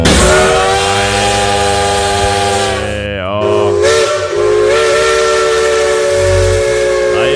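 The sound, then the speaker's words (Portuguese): Steam locomotive whistle of the Maria Fumaça train in the mountains of Minas Gerais: a loud, sustained, harmonic-rich whistle over hiss that briefly dips and bends in pitch midway, then sounds steadily again to the end. “A nossa Maria Fumaça cortando as montanhas de Minas, cortando as montanhas das Gerais.”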